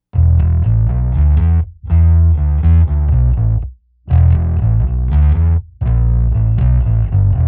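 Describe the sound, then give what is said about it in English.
A Hohner Studio 5 bass guitar strung with Dean Markley Blue Steel strings plays a loud riff with distortion and chorus effects. The notes come in four dense phrases, each separated by a brief gap. “The bass used for the recording was a Hohner Studio 5 bass, strung with Dean Markley Blue Steel strings. This live bass sounds exactly like this.”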